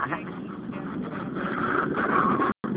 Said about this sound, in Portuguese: É que eu tô dentro do carro e eu pensei que tivesse caído a ligação.